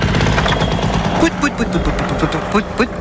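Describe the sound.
Paramotor engine in flight gives a loud, rattling, buzzing drone with rapid pulsing throughout, while a voice talks over it in the second half.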